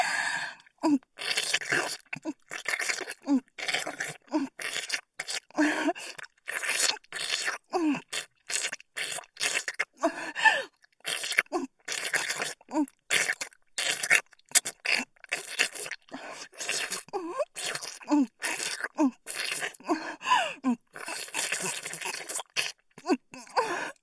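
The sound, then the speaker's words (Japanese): Wet mouth licking sounds: many rapid, moist smacks and slurps in an uneven, almost continuous rhythm, close and fairly loud. “この調子でもっと舐めまくってあげる。”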